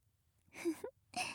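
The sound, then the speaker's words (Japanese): Gentle breath blowing between ear cleaning, heard as two soft, airy puffs of breath separated by a short pause. “ああ、やっぱりいいよね、お耳掃除の合間の息ふうふう。”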